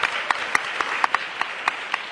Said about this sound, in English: So I just want to give her a little shout out and perhaps a round of applause for all of the work she's done.